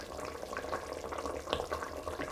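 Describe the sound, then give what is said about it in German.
Potatoes for a potato and pumpkin goulash boil in an opened pot as they are stirred, giving a steady, soft bubbling hiss with a few faint knocks scattered through it and no talking. “So, jetzt werden wir mal aufmachen und mal umrühren. Mal schauen, wie weit die Erdäpfel schon sind.”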